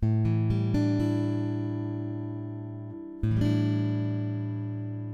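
A guitar chord strummed and left to ring, its bright sustained tones slowly decaying, then struck once more around the middle and allowed to sustain again; no voices.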